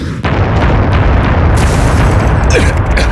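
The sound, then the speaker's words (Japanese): A missile explosion in a sci-fi battle scene: a sudden loud blast right at the start rolls into a sustained, dense, rumbling roar that stays loud to the end. “ミサイルが”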